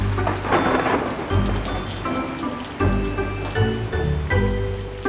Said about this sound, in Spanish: Cuando llueve fuerte, fuerte y se oyen truenos,